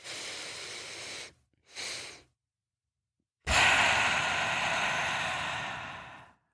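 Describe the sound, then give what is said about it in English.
A double inhale through the nose followed by one long exhale through the mouth, in a cyclic sighing breathing exercise. Two short sniffing breaths come first, then a pause and a long, steady, airy exhale that slowly fades. “You breathe in twice through your nose. You breathe out once through your mouth.”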